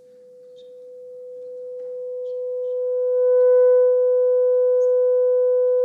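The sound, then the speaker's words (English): A pure test tone of the kind used to match listening volume: one steady, constant pitch that swells gradually louder, with faint higher overtones joining partway through and holding to the end. “I asked each of the survivors to listen to the sound of a test tone and to match the volume of the tone with the level at which they could whisper to one another in their cells.”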